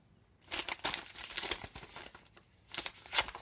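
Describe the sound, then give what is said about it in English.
A paper envelope being torn open to announce a poetry competition winner: quiet, rapid crinkling and ripping of paper in many short bursts, with no voices. “First, I'll open the envelope for those aged 13.”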